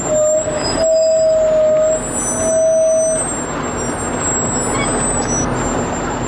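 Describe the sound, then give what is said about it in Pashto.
A military convoy of about thirty tanks and dozens of armoured vehicles moves from Lashkar Gah toward Nahr-e Saraj district, giving a continuous heavy rumble with a steady high whine that cuts out partway, plus thin high squeals above. “د دیرش تنه ضربتي ټانک تورپلن ټیرونه او پسې لسګونه نور زغروال او شوبلې د لشکرګاه څخه د نهر سراج ولسوالۍ په لور ځي”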